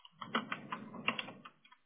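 Typing on a computer keyboard: a short, quiet burst of many rapid key clicks in an uneven rhythm.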